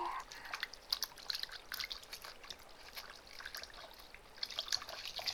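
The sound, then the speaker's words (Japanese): Water rinses soap suds away with a faint, irregular trickle and light spattering that runs throughout, with small splashy bursts now and then. “石鹸の泡のブクブク消えるまで、ゆすいで、”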